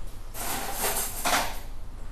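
Stainless steel teaspoons are picked up for the first tasting of ice cream fresh out of the churn at an artisan ice-cream maker's. The spoons make a couple of bright metallic clattering bursts over a steady background hiss.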